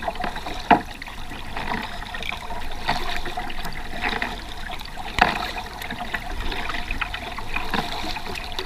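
A kayak paddles against the tide, with steady, rhythmic paddle strokes and splashes over a constant wash of moving, trickling water; a few strokes stand out louder than the rest.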